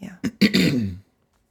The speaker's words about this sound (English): Clear that throat. Yes, I must.